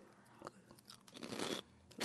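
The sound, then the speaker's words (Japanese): Crisp crunching as someone bites into a gateau rusk: a few dry, brittle cracks, with the loudest burst of crunching in the middle and a final bite at the end, alone without talk. “アニゾーさんのね、差し入れラスクいただきましょう。 いただきます。 はい、ガトーラスク、”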